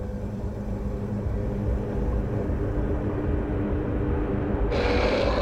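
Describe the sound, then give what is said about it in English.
A blender spins leafy greens into a green liquid with a continuous loud, droning motor rumble. The sound stays steady throughout, then turns brighter and harsher near the end. “The green liquid spins in the blender.”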